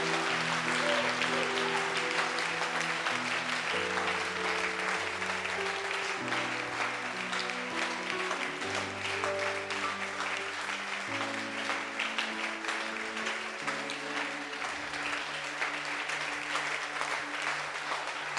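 Church audience applauding the Holy Spirit, steady dense clapping that continues for about eighteen seconds over sustained musical chords that change pitch step by step.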